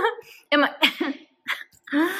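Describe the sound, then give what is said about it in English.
Coughing and choking mixed with laughter: a few short, strained bursts with voiced, breathy catches between brief pauses. “I'm like coughing, choking as I'm laughing.”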